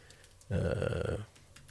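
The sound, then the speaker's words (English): Typing on a computer keyboard: one short burst of rapid, dense keystrokes that lasts under a second, with quiet before and after. “let me see if I can do that real quick here. If I can type.”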